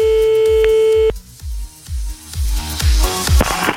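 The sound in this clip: Telephone tone as an outgoing call is placed: a steady tone held for about a second, then rhythmic music with pulsing beats.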